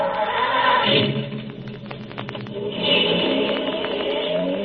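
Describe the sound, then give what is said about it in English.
A robot-operated automobile in Transylvania pulls away, giving off a steady mechanical rumble and whir with a burst of scraping clicks in the middle. The sound swells again near the end. “This is a robot-operated automobile. Observe. I merely press this button.”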